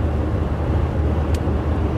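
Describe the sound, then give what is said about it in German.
Steady rumble of a bus picking up speed downhill with a slight tailwind, a continuous broad roar of engine and road noise that stays level throughout, with no voices. “Ich bin jetzt auf dem Abschnitt, wo ich mit meinem Bus auch mal ein bisschen schneller fahren kann, weil es geht bergab und ich habe ein kleines bisschen Rückenwind.”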